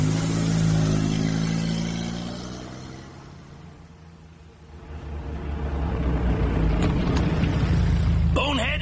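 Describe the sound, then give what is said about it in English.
A car engine roars as the car drives past a bullion van in a gangster radio drama, a loud rumbling drone that eases off midway and then swells again to full strength. “drive past the bullion van and let them have the Tommy gun.”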